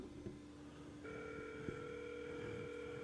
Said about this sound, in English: I just want to see if a call comes in. Okay, that's my phone.